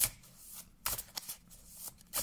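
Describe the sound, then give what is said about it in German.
Quiet riffling and slapping of a deck of tarot cards being shuffled by hand, heard as several short papery bursts in an uneven rhythm with soft rustling between them. “mischen wir mal durch.”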